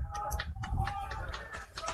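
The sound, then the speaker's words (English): Baseball fans near the crowd microphone squawking: faint, shrill bird-like cries over a steady murmur of crowd noise. “the CBU fans that are near our crowd mic squawking a little bit.”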